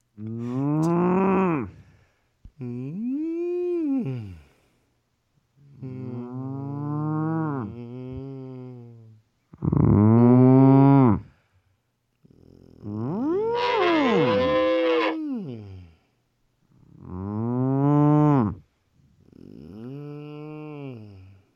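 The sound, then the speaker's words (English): A person imitates a cow mooing, producing seven drawn-out, low, lowing calls separated by short pauses. Some calls are longer and wavering, others brief and rounded. “learn how to do the actual sound a cow makes”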